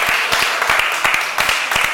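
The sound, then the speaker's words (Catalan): Applause rises in a council chamber during a plenary session: a lively round of hand clapping, with distinct individual claps over a steady wash. “Aplaudiments generosos, que no generals, però generosos.”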